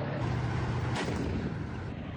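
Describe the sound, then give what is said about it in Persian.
Artillery fire during an Iranian army ground forces exercise near Isfahan, with armored units advancing. One heavy boom cuts through a continuous rumbling roar. “یگانهای زرهی با پشتیبانی توپخانه و بالگردهای کبرا در حال پیش روی هستند.”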